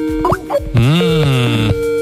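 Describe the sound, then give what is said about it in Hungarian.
Skype call dialing tone: a few short electronic blips, then a long, loud, sustained synthetic tone that bends in pitch before cutting off. “Ez egy ilyen tárcsázás hang.”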